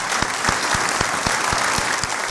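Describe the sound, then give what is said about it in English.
Audience applause at a church service, a steady, dense clatter of many hands clapping together that keeps an even loudness throughout. “Give everyone a round of applause, please.”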